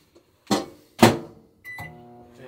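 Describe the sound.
A microwave oven cooking potatoes: two sharp clunks in a row, then a steady humming tone with a faint beep starts and carries on to the end.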